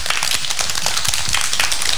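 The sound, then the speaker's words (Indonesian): Children clap their hands after a teacher's story, giving a dense, rapid, uneven patter of claps that stays steady for about two seconds, with no voices. “Tepuk tangan.”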